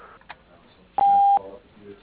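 A voicemail beep tone: one steady, loud electronic beep lasting under half a second, sounding alone over faint background noise.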